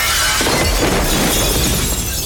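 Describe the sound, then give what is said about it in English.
A glass barrier shatters as two men crash through it toward a lobby below: a loud, dense burst of breaking glass that stays intense across the whole clip, full of crackling, scattering fragments. “As Bly grabs the weapon, Neil dives on him, and they crash through a glass barrier to the lobby below.”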